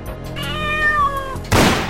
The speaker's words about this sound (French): Oh, ça fait 4 jours qu'il miaule, pas moyen de fermer l'œil.